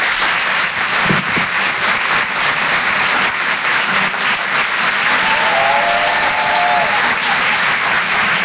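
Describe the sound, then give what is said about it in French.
Loud, sustained audience applause for a stand-up comedian at the Grand Point Virgule comedy club, dense steady clapping at constant strength that fills the whole stretch. “On peut l'applaudir très fort, Christine Béroux, en direct sur Rire et Chanson depuis le Grand Point Virgule. Bravo Christine.”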